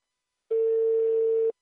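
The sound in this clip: A single phone tone sounds while calling a football coach: one steady, clean beep lasting about a second, starting and stopping abruptly amid silence.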